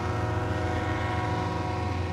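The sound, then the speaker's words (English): Freight train passing through a town on its rail line: a dense, steady low rumble with a droning tone that holds the same loudness throughout the short stretch. “And freight trains that come through the rail line.”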